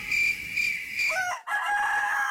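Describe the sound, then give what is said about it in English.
A rooster crows loudly in a long, drawn-out, high-pitched call, broken by a short gap near the middle before the call carries on, with no other sounds. “One chicken, two chickens. One chicken.”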